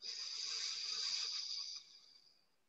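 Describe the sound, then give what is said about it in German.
A steady, airy hiss of breath pushed out through the left nostril during alternate nostril breathing, faint and even for nearly two seconds before trailing off quietly. “rechts verschließen, links öffnen und ausatmen.”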